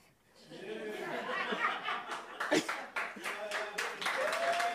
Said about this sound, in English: wait, why is everyone clapping for? I don't understand.